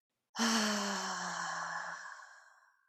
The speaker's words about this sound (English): you're going to inhale for 10. And you hold it. And then you exhale.